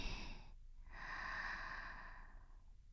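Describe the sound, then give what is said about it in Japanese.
A single slow, quiet inhale that swells steadily and then tapers off, following a brief breath at the start. “一緒に力を抜いていこうね。息を吸って”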